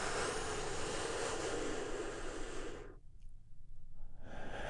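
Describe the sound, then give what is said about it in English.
A big, deep breath is drawn during a guided healing meditation. The airy breath noise is steady and sustained for about three seconds, dips into a brief quiet gap, then resumes. “together we take a big, deep healing breath right now. Here we go.”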